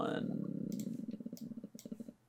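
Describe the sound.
A few sharp computer mouse clicks during a tabletop role-playing game session, quiet and crisp, sounding over continuous talking.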